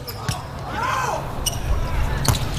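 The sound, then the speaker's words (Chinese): A volleyball serve struck during a match gives a few sharp, percussive slaps of hand on ball over continuous background noise, with a voice talking throughout. “好发球，”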